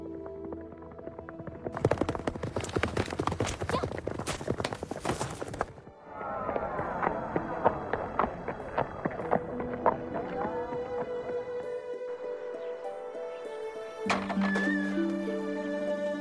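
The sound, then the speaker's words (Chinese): Horse hooves gallop as Mulan rides home on a prized swift horse with a few loyal followers. A horse whinny and a busy, dense layer of sound run alongside the hoofbeats, shifting in texture partway through. “他骑着马。和几个忠心的部下一起回到了家乡。”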